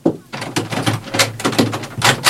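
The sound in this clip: A drawer slides open with a rattling, scraping rumble that moves in several uneven pulses, fairly loud and continuous.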